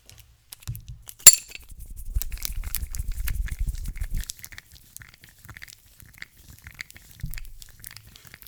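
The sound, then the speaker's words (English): Two coins are rubbed together, giving one sharp metallic clink near the start, then faint scraping and scattered light ticks over a low rumble of handling noise. “That's the sound of rubbing two coins together.”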